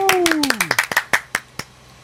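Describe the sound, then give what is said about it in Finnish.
A few people give applause for a radio show's sound engineer: sparse, sharp hand claps in an uneven rhythm that thin out toward the end, opened by a falling pitched tone. “annetaanpas Juholle vielä tässä vaiheessa kunnon aplodit.”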